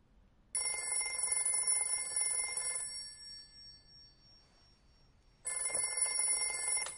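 A smartphone with a cracked screen rings in two long bursts of bright electronic trilling, separated by a few seconds of quiet, with no voices.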